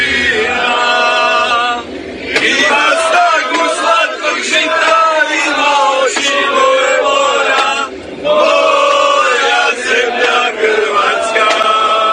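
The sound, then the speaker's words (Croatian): Croatian football fans in the streets of Moscow sing and chant loudly in unison, a full-throated crowd song that runs continuously with brief dips near the start and partway through. “Grla se nisu štedjela ni na moskovskim ulicama. Podrška vatrenima stiže sa svih strana,”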